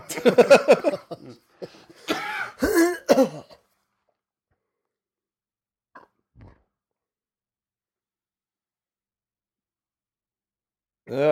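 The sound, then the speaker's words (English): Several loud, harsh coughs burst out in quick succession, followed by near silence with only a couple of faint, brief clicks and a short noise at the end. “Oh, there, big cough.”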